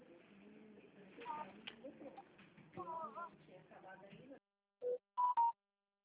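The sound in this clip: A telephone keypad being dialed: three short, clear tonal beeps follow a stretch of quiet talk.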